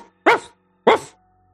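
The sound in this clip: Two loud, sharp barks from a dog in a video game, the dog following behind a character, separated by a short pause with no other sound around them.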